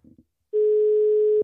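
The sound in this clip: A telephone call tone heard while dialing: a couple of faint brief clicks, then one steady, even mid-pitched tone holding for about a second before it cuts off.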